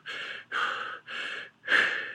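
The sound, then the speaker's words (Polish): Slow, deep breaths, each a broad airy rush of similar length separated by short gaps, the last one a little stronger. No other sound is heard. “zróbcie sobie głębokie trzy wdechy. Uff”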